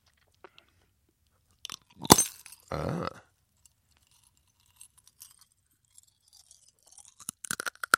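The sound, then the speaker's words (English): Teeth bite through a hard, brittle object as a sideshow stunt: one sharp, loud crunch, then a longer grinding crunch, followed by scattered faint clicks and crackles. “And you broke that mm-hmm. with your teeth. Just bit into it.”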